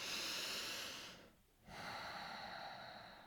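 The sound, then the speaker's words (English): Slow, deep breathing is heard as a long, airy, hissing breath that fades into a brief pause, followed by another long, steady breath. The sound is soft and has no talk over it. “There's no reason you can't start right now. Breathe.”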